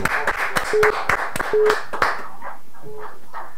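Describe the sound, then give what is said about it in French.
Rhythmic clapping comes from a church audience acclaiming the Lord after a healing testimony during a worship service. Sharp, evenly spaced claps fill the first two seconds, with brief tonal pings between them, before the clapping softens and thins out. “Acclamons ah, pour le Seigneur.”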